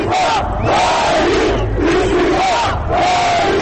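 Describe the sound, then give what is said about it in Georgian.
Loud, rhythmic shouted chanting of a nationalist slogan at a football fans' protest. A mass of voices repeats the same phrase in about three cycles over a constant crowd roar. “თურქეთი თურქებისთვის, გაყვიროდა ერთ-ერთი დემონსტრანტი.”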